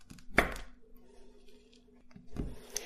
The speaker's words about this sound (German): Aber ich glaube, ich hacke jetzt auch erstmal hier die Schokolade fertig.